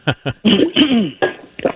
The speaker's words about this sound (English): Let me clear my throat so I can take a sip of water.